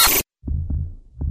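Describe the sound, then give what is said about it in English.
A normal human heartbeat: a few low, muffled thumps in a soft rhythm, following a brief burst of harsh noise at the very start. “This is the sound of a normal heart.”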